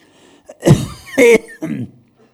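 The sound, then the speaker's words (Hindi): Coughing comes as three harsh, loud bursts in quick succession, with a brief softer sound just before the first, and quiet in between. “ना खांसो अच्छा दो minute खांस लो थोड़ा थोड़ा”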